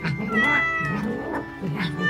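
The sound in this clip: A big yellow cat meows in a few drawn-out, wavering cries. The cries are clear and fairly loud, with short dips between them.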